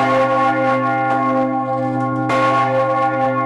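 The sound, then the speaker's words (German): A city alarm bell in Lausanne is rung in a traditional emergency rhythm. A few heavy, loud strokes sound with rich, low, long-ringing tones that overlap and slowly decay between hits, with no voices. “Das ist so ein altbewährter Nottakt hier, in dem die Clémence gebimmelt wird. 3 Schläge und dann Pause, 6 Schläge, Pause und dann immer so weiter. Und ja, das klang dann so.”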